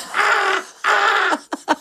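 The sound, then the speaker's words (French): Harsh, crow-like bird calls: two long rasping caws followed by a few short clipped calls, loud and alone. “Entre deux chants d'oiseaux, cui-cui-cui-cui-cui”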